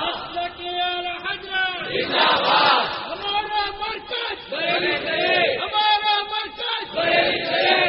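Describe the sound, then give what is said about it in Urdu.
Crowd chanting religious slogans in unison, many voices sustained and loud across the whole stretch, swelling and dipping in repeated waves of shouted phrases. “بس بس اب نعرے بہت ہو گئے، نعرے number حضرت بھی نہیں لگا دیا. چلو لیکن آدمی کا جذبہ ہوتا ہے، لگ جاتا ہے.”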